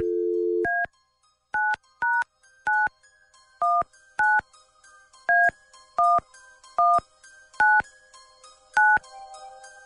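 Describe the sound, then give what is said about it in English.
Telephone keypad tones dialing a number, heard as a short dial tone followed by eleven separate beeps of varying pitch at an uneven rhythm, clear and alone. “Dialing at random.”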